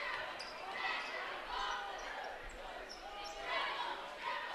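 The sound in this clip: A basketball dribbled on the court during a high school game between the Adams Eagles and Plymouth. The bounces are faint and sit under a constant wash of crowd noise, with no clear individual hits.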